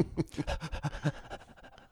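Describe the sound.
A dog pants right into a microphone: many rapid, rhythmic breaths, loud and close, in a steady quick pulse that softens slightly toward the end.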